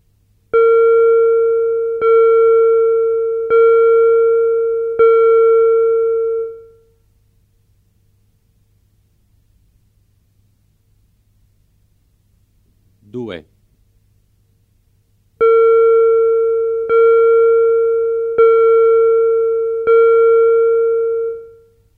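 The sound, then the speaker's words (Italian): Audiometric hearing test tones: four steady, evenly spaced beeps of equal pitch, then a lone short sweeping chirp after a silence, then four more identical beeps, all clean and moderately loud. “Test audiometrico, sedicesimo di tono.”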